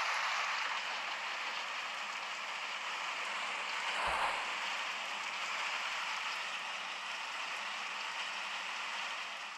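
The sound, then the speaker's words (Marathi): Steady rain of the season's first shower falls in a dense, even hiss that stays constant and fairly loud throughout, with no voices. “सईताई चल आपण पावसात खेळायला जाऊया का?”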